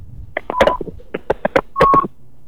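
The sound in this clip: Telephone keypad tones as a call is dialed: many short beeps in quick, uneven succession, some held slightly longer, clear and fairly loud against a quiet background.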